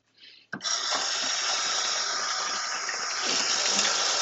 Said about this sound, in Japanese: 水筒に入れてまして、それを今洗っています。